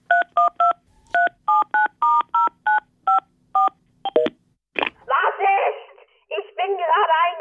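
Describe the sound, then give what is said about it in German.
Touch-tone keypad beeps as a telephone number is dialed, a quick run of many short, evenly spaced tones. A burst of voice-like sound follows the dialing. “Ich glaube, ich sollte meinen Chef anrufen.”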